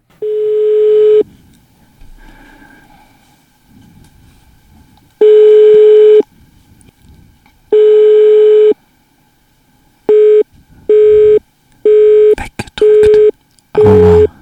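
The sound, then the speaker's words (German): Telephone line tones as a computer dials a number: three long, steady mid-pitched tones spaced seconds apart, then a quicker series of shorter busy-signal beeps, loud and with no voices. “Wir haben eine Nummer ausgewählt hier auf unserem Computer und lassen die mal hier kurz wählen und schauen, wer dran geht.”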